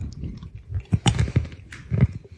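Crunchy chewing of a spicy paprika, chicken-seasoned snack: a few sharp bites and crackling crunches amid softer munching, moderately loud with no talk.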